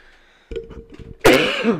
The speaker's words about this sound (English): But, sorry, I coughed. It's all that smoking.